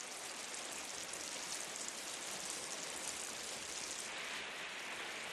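Rain falls steadily as a man sits on a bench holding a cup out under the drops. The downpour is an even, unbroken hiss that stays at a constant low level throughout.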